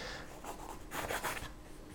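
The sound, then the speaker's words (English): Scratchy strokes of a sketch being drawn on paper, a run of short, dry scraping marks that grows louder and denser in the middle before easing off again. “So I'm just going to do a really crappy drawing here.”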